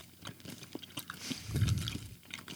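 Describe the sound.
Someone chews a whole handful of spicy mango candies, with irregular soft crunches and wet mouth sounds. The chewing is quiet and there is no talking.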